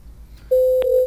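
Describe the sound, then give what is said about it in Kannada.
A telephone tone sounds after a call is cut off: a steady, mid-pitched electronic tone starts abruptly partway through and holds loud and even, marked by a couple of faint clicks. “ಕರೆ ತುಂಡಾಗಿದೆ ಅನ್ಸುತ್ತೆ”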